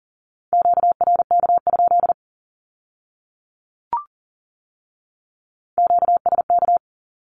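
Morse code sending a Q-code at 40 words per minute: a steady, high-pitched tone in rapid dots and dashes. Two dense bursts are separated by a silent pause, with a single short click in between.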